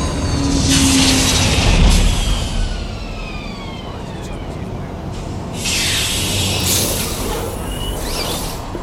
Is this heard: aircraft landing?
yes